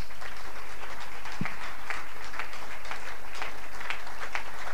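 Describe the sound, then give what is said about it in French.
A standing audience claps loudly in acclamation of God at a church service, the dense applause sustained without a break. “Nous nous levons pour acclamer le Seigneur,”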